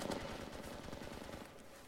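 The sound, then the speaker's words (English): Video game gunfire rattles in a rapid automatic burst, faint and continuous with a fast, even rhythm, fading slightly toward the end. “Somebody took a shot at me.”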